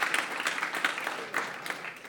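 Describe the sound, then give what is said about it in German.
Applause from a church audience: a dense, steady patter of many hands clapping for about two seconds, moderately loud and without talk over it. “Lass uns bitte Gabsche mal einen kräftigen Applaus geben.”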